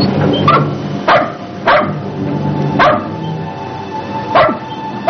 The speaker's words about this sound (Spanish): Miren al perro.